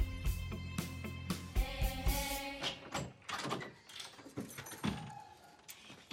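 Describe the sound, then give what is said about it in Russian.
Keys jangle as a house door is unlocked and opened at night: an irregular series of sharp clicks, knocks and rattles from the lock and latch, fairly faint. “Ночь. Жульбер открывает двери дома. Он включает свет.”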